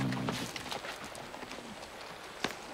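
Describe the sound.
A horse's hooves clopping in an uneven rhythm, a series of fairly faint knocks with one sharper strike near the end.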